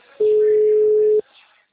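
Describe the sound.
A single steady telephone tone sounds for about one second while a call is being placed, loud and even in pitch, then cuts off into faint background noise.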